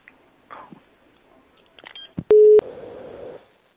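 Telephone call tones: faint clicks and short beeps lead to a loud, steady pure tone cut off by two sharp clicks, followed by a softer, buzzing line tone that fades out.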